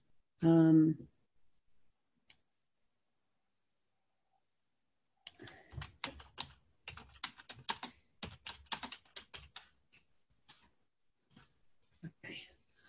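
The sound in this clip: Rapid typing on a computer keyboard: a dense, irregular run of sharp clicks lasting about eight seconds with brief pauses. It follows a short voiced sound at the start and a long quiet gap.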